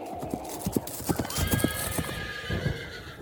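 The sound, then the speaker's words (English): A ridden horse approaches with its hooves clip-clopping in an uneven, brisk rhythm, and a loud whinny rises over the hoofbeats midway. “The horseman is coming.”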